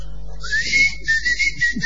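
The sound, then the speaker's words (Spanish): A person whistles a short tune, a clear, fairly high whistle that slides upward into a few sustained, steady notes, heard alone with no talking. “Silbar.”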